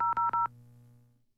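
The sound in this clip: Telephone dialing tones as a radio station places a call: three quick, bright keypad beeps in a row, followed by a low steady hum that slowly fades away.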